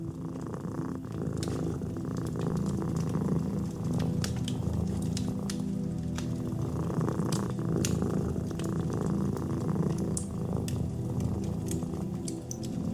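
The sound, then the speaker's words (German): A cat purring: a steady, continuous low rumble that runs without a break through the whole clip at an even, moderate level, with no voices. “Das Schnurren ist nicht nur ein Ausdruck von Zufriedenheit, sondern auch eine natürliche Art der Entspannung und Selbstheilung.”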